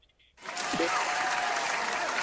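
A studio audience bursts into applause after a brief faint moment, the clapping rising quickly to a dense, loud, sustained roar that holds steady to the end.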